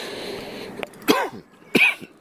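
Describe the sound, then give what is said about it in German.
Two separate coughs, each a sharp, harsh burst about half a second apart, heard alone over a faint background hiss. “Husten ist doof.”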